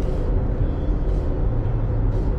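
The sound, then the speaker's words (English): A car drives along with a steady, low engine and road rumble that stays fairly even throughout, and no one talks. “I'm pretty sure the baby's sleeping. Going for a drive.”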